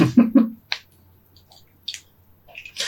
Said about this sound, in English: Yeah, sorry, my Rubik's Cube broke.